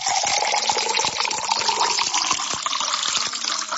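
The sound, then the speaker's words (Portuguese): Water is poured out to drink, a steady gushing, splashing stream that runs without a break from start to finish, with no talk. “Vamos tomar uma aguinha agora? Aquela aguinha da pura, da boa, aqui no programa A Voz da Libertação, ó.”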